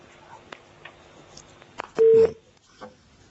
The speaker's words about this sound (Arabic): معنا اتصال.